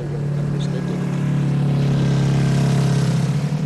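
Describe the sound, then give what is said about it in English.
A student-built competition vehicle drones through an acceleration run down a straight 75-metre strip, its steady, low engine hum growing gradually louder over a few seconds. “This morning, the teams are doing acceleration runs on what normally serves as pit row. One by one, students drive as fast as they can down a straight 75-meter strip.”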